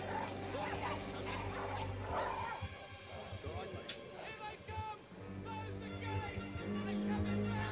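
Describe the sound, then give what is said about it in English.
A dog biting at a man's foot yips, whimpers and barks in short, excited bursts under steady background tones, while people talk over it. “He's not fazed by this dog at all biting his foot.”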